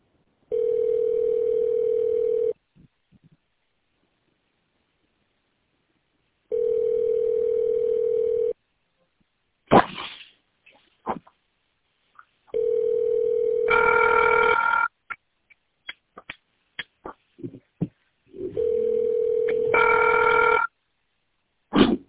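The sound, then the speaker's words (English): Telephone ringback while a call is being transferred: four steady electronic ring tones of about two seconds each at regular intervals, with sharp clicks and brief beeps scattered between the later rings. “Just a moment. I'll transfer you to her.”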